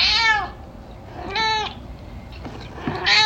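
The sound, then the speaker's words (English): A domestic cat meowing, three clear, high, drawn-out meows with gaps between them and a faint shorter sound before the last one. “those absolutely adorable sounds you're hearing right now are from my cat, Potato”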